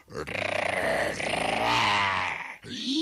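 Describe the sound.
A human voice imitates a tiger growling with its jaws open: a low, rough, pulsing roar held for nearly three seconds, loud and throaty, with a brief break just before the end.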